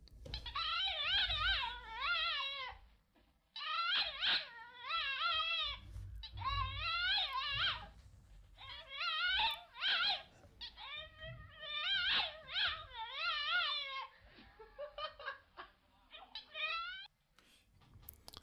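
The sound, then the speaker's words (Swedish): A dog makes strange whimpering sounds: many high, wavering whines in bursts, some drawn out and some short, with brief pauses between them and no talking. “Det är en hund som försöker säga något.”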